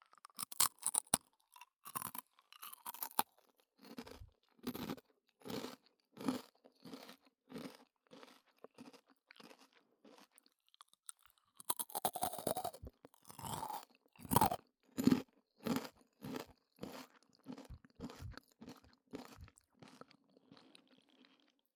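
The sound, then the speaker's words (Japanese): Crisp crunching of a plain Japanese rice cracker being bitten and chewed, with many sharp, rhythmic crunches in two bursts separated by a brief pause, loud and without talking. “普通のノーマルおせんべい部分は軽快な音でしょう。”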